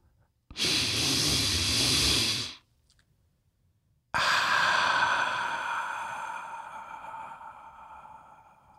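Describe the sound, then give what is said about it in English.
A single deep human breath: a long, airy inhale of about two seconds, a short silence, then a slow exhale that starts strong and gradually fades away. “let's take a deep breath”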